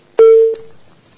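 A single steady electronic tone sounds as a telephone call connects on a call-in show. It is one clear, sustained mid-pitched beep lasting about half a second, then fading, with nothing else around it.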